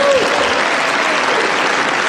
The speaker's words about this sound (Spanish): Y era aplaudido cuando suspendía las importaciones de Schengen.